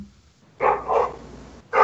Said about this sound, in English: As a dog barks from the park across the way.